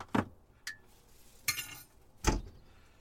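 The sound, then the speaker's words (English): Clinks of cups and spoons as powdered milk is added to a cup of tea: four sharp clinks, spaced apart, over quiet background. “Hang on. Popping me powdered milk.”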